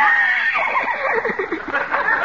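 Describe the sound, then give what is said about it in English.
A horse neighs in a shrill, quavering whinny whose pitch wavers rapidly for about two seconds, loud and heard alone. “Come on, horsey, come here. Open your mouth. Open up.”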